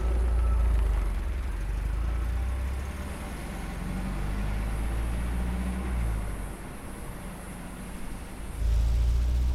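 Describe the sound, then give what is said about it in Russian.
A car drives along a dirt field road with a continuous low engine and road rumble that dips slightly in the middle and swells again near the end. “Машина следует дальше по полевой дороге.”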